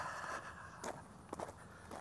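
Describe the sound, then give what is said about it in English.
Footsteps of a man walking around. A few faint, scattered steps with soft scuffs sound over a quiet background hiss. “I am walking around. I didn't intend to be walking around today.”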